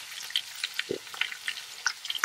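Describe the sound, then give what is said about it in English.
Leaves, stripped from their stems, crackle as they cook in butter. Many faint, irregular pops and sizzles sound against a quiet background. “crackling, you could probably hear it start to crackle because it's not going to take long for this to cook”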